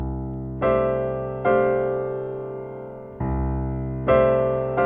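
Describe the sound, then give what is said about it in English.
Two chord voicings alternated, with the left hand on A and D under a right hand of G and C topped first by E, then by F: five struck chords, each ringing and slowly decaying, played alone with nothing else heard. “So those two voicings side by side, E as the melody on top and F as the melody on top, sound like this.”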